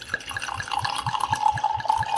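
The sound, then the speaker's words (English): Wine poured from a bottle into a wine glass, making a run of rhythmic glugs over a steady trickling splash at moderate loudness. “I'm going to put it in my Cooper's Hawk wine glass, which I purchased a few weeks ago at the Cooper's Hawk Winery and Restaurant. Let me use my other hand. I'm right-handed, by the way. And we're going to pour this in.”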